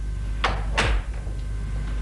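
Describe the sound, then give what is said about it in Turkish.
A door being shut, heard as a couple of sharp knocks closely followed by a deep, low thud, with no voices and quiet background noise around it. “Kapıyı kapat”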